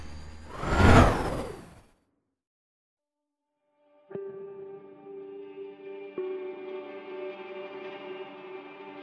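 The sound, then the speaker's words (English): A hover vehicle, an all-terrain glider, lifts off: an opening swelling whoosh, then silence, then a sudden steady, harmonic electric hum that jolts again partway through and holds on. “The soft glow of blue light emitted from the bottom as the vehicle slowly rose about 2 feet off the ground. I waited for the kickstands to retract, and then I was off.”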